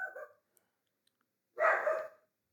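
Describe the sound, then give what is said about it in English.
A household dog barking at nothing: a short bark at the start, then after a quiet pause a louder, longer bark burst, both fairly faint overall. “There's our dog, yeah. You'll probably hear him. Barking at nothing.”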